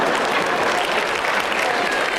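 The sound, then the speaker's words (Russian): An audience applauds, dense continuous clapping at a steady loud level throughout with no clear breaks. “Вот мне нравится, что вы аплодируете”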